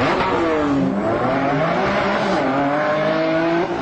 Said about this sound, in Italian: start your engine.